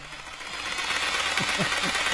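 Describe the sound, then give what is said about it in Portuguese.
An overlock sewing machine runs in a clothing workshop, giving a dense, steady whirring drone with a faint rhythmic pulse beneath it that continues without a break. “Olha o overlock ligado, mano. E o bagulho lá, pilhando de novo, olha lá. Os caras estavam lá, todo vapor, olha lá. Olha o barulhão, olha lá.”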